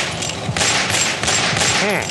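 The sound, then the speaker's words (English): Rapid gunfire used as a comedy sound effect of police officers shooting, a dense, continuous burst of crackling shots that runs through the whole moment without pause. “Oh, God, they're shooting me. My God, they're pumping me full of lead.”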